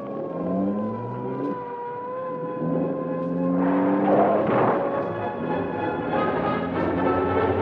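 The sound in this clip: Police car siren wailing in rising and falling sweeps during a car chase, over a loud, steady engine roar that runs the whole length without any voices.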